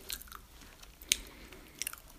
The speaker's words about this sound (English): It's a regular powdered donut. Pretty good. Let's try another.